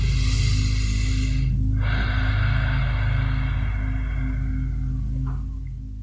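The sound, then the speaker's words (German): Deep Ujjayi breathing, a full inhale and exhale through a narrowed throat, makes a long, steady breathy hiss over a constant low hum. “Atme vollständig ein, gerne im Ujjayi-Atem aus.”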